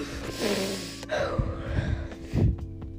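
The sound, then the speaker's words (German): A deep breath drawn in by a person with a cough and sore throat: a long, airy inhale, followed by a few shorter breathy sounds. “Ich will mal kurz tief Luft einatmen.”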